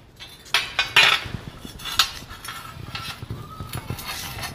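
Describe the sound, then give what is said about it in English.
Metal conduit pipe clanks and rattles as it is flipped around and set into a pipe bender, giving a few sharp metallic knocks and clinks over a rustling handling noise, with no talk. “So I'm gonna flip my pipe around and stick it right on that star.”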